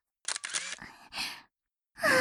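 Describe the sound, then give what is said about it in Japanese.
Camera shutter clicks from photos being taken, a few short bursts of clicking separated by brief silences. “写真撮ってる。”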